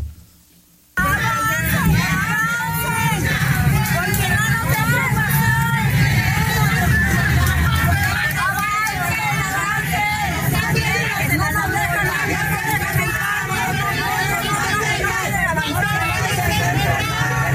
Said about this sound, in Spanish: De esta manera, entre consignas de no te vayas a enfermar porque no tenemos personal, fuera las Afores, que regresen las pensiones y no hay alcohol ni inyección, pero sí hay corrupción, los manifestantes caminaron por toda Plan de Ayala